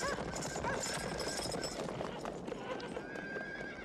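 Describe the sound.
Horse hooves clop in a ravine amid a busy, continuous mix of sound, with a whinny-like call near the start and steady hoofbeats running under it.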